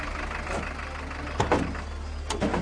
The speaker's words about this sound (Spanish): Al acercarse al yacimiento, apagan los faros, aminoran la marcha y se apean a una distancia prudencial.